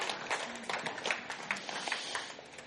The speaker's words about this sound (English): let's applaud one more time for him.